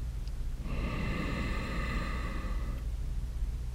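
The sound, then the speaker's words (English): Deep inhale through the nose with the throat gently constricted: a steady, airy, slightly rasping hiss lasting about two seconds, faint and alone. “Take a deep breath in through your nose while gently constricting your throat for an audible breath.”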